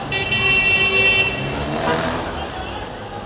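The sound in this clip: Car horns honk in a Cairo traffic jam: a steady, buzzy horn blare lasts about the first second, then gives way to a dense rumble of road traffic, with voices mixed in.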